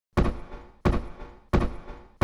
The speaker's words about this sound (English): Kaitoa now stomps out of the front door and makes out of the place where you three are.